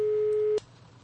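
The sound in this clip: A telephone busy tone sounds after a caller's line drops during a call-in question-and-answer session: a steady, single mid-pitched tone that cuts off abruptly about halfway through, leaving only faint low hiss.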